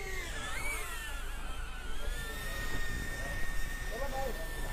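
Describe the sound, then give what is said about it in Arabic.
A camera drone flying overhead gives a steady whirring hum with a high, slightly wavering whine. Low rumble sits underneath, and people talk quietly. “هاي الدرون”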